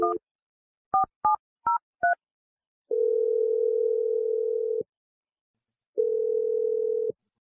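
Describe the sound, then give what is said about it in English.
Telephone keypad tones as a number is dialed: five short two-pitch beeps in quick succession, followed by two long, steady single tones separated by a gap of silence. “But I'm going to dial Stephanie's number, and let's see what she has to say.”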